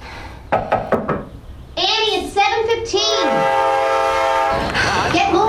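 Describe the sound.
Subway train sounds: a few quick knocks, then wavering tonal sounds and a long, steady horn-like tone over a loud, continuous rumble.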